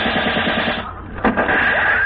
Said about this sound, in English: Hey, those are bullets. Yeah, are we being shot at?